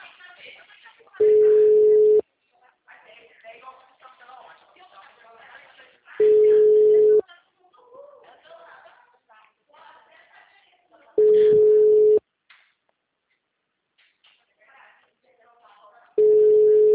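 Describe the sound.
Telephone ringback tone sounds while a caller waits for an answer: four steady, mid-pitched tones, each about a second long and roughly five seconds apart. The last tone is cut off. Quiet voices talk in the gaps between tones.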